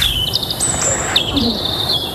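European robin song, a brief run of thin, high-pitched whistles and quick warbling trills, bright and fairly loud against a faint background hiss.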